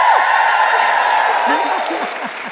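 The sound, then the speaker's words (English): Cheering and clapping from a live audience: a loud, dense wash of applause with scattered shouts and whoops rising through the second half, easing slightly at the end. “I would love for that woman to hear this audience. This is our first live audience. Can you guys just give us a shout out”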